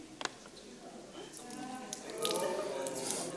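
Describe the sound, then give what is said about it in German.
Water runs into a cup until it overflows, a soft, quiet trickle and spatter with a few small splashes, building slightly toward the end. “Dann fließt der Becher über. Dann ist er übervoll.”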